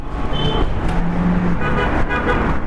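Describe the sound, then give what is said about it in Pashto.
Cars and other traffic pass on the Kabul–Kandahar highway beside a small village bazaar near Ghazni, making a continuous loud rushing roar. A brief, high horn toot sounds early on. “دروزې کلی، دلته یو وړوکی بازار دی چې د دغه کلي خلک پکې د اړتیا وړ توکي اخلي او د لویې لارې موټران هم تیریږي.”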